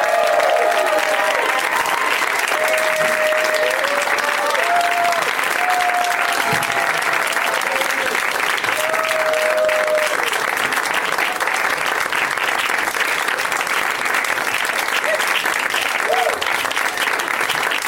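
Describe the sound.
An audience welcomes guests with loud, sustained applause, many hands clapping steadily throughout.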